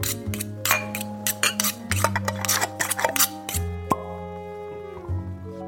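Clinks, ticks and scrapes of dishes, pots and cutlery in a kitchen where a home chef prepares a meal for dinner guests: many sharp, bright metallic taps, some with ringing tones, in an irregular clatter.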